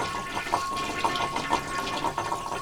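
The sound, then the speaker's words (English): Water rushes steadily as a toilet flushes after a cat's water bowl is emptied, a continuous gurgling stream with small repeated splashes throughout and a faint steady hum beneath. “we pick up the old kitty water, we pour it out, we flush the toilet, we drop the bowl back on the ground”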